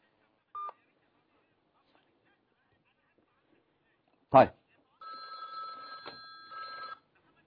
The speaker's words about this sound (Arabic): اتصل اهو والتليفون امامنا يتواصل على هذا الرقم مره اخرى